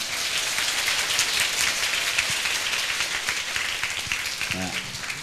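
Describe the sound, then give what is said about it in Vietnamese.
Steady applause from a gathering of young people honouring a teacher at a spiritual outing, sustained and even throughout with no break, a voice briefly audible near the end. “xin tất cả các bạn ở đây cho thầy chào pháo tay nha”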